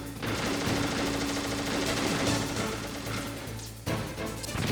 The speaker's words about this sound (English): I think he's just going down each row and just shooting down it.